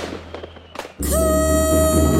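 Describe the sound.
Fireworks at a Territory Day celebration: a short burst of crackles, then a sudden loud, sustained hissing rush threaded with whistling tones.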